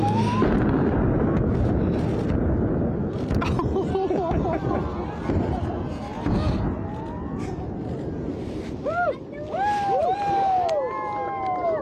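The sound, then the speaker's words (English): An explosive blast at Kalgoorlie's Super Pit gold mine, set off for a gender reveal, produces a long, deep rolling rumble. A crowd chatters and cheers over it throughout. “Here is the moment that an explosive blast at Kalgoorlie's Super Pit gold mine sent pink powder flying and tears flowing for a unique gender reveal.”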